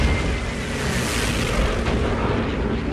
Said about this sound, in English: Enemy flak explodes in the air ahead of the bombers.